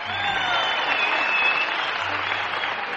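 An audience at the Grand Ole Opry applauds to welcome a guest, with loud, dense, steady clapping through the whole clip.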